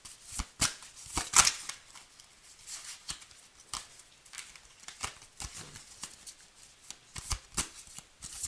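Tarot cards being shuffled by hand, with many soft, papery slaps and riffles in an irregular rhythm, fairly quiet and without talk.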